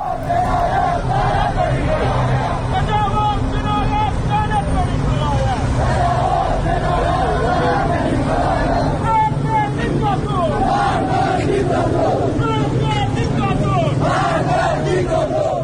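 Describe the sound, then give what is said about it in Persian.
Loud crowd of protesters shouting and chanting in the streets of Iranshahr, Iran, with many overlapping voices forming a dense, continuous roar that does not let up for the whole stretch. “این صدای مردم ایران شهر بود.”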